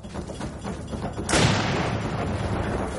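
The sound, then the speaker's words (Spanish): A rifle shot in a forest of tall, bare trees during a chase scene: one sudden loud blast about midway, followed by a sustained roar of noise. “Fitzgerald falla el tiro y echa a correr. Glass le apunta.”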